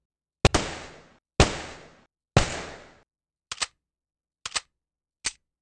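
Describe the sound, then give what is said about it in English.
Gunshots from the 950 gun in the video game Fallout Tactics: six sharp shots, the first three loud with long decaying tails and the last three shorter, clipped cracks. “Well, we don't really get any other information other than these two guns show up. But, I mean, I guess there is a little bit more information because they sound like this.”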